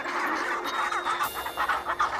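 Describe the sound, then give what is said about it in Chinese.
Chinstrap penguin chicks calling: a continuous, busy stream of harsh, chattering, clucking calls that overlap one another, with no talking. “帽带企鹅雏鸟也学着叫了几声。”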